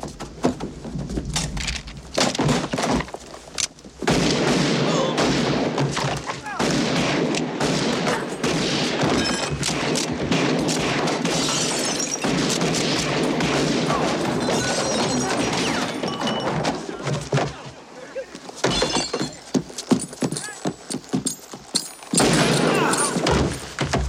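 Gunfire in a radio-drama shootout: a dense, loud fusillade of rapid shots and crashing impacts that runs almost without a break, with only brief gaps.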